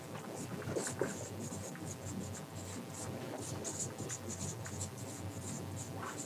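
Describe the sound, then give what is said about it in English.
Scratchy, continuous writing strokes as words are written up on a board, a steady run of short rubbing and squeaking marks with no pauses. “So I'll just write them up there so we all remember.”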